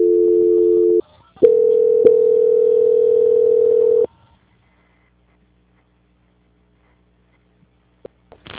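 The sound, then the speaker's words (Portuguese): A telephone line tone plays while a call is being transferred. One steady, loud hum cuts off briefly, then a second steady tone of a different pitch runs for nearly three seconds before the line goes silent, with only a few faint clicks afterward. “eu já estou transferindo agora a senhora direto, tá?”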